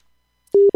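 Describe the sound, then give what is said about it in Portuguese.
A busy tone after a dropped phone call: after near silence, two short, steady, mid-pitched beeps play, the second cut off. “Opa, caiu aqui a ligação, mas vai voltar, a conexão volta. Ela sempre volta.”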